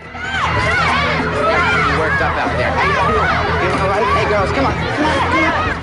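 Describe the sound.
Loud crowd chatter from concertgoers in goth and punk rock outfits heading towards a concert venue: a dense, steady babble of many voices with scattered shouts and cheers throughout.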